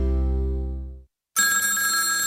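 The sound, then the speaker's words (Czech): A telephone rings with an incoming call. After a low sustained tone fades out and a brief silence, a loud, bright ringing starts abruptly and continues steadily to the end. “Škola volá, ale my to nezvedáme.”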